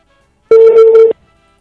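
A single ringing tone from a telephone call placed to a contest winner: one steady, mid-pitched buzzing ring lasting just over half a second, heard alone between short silences.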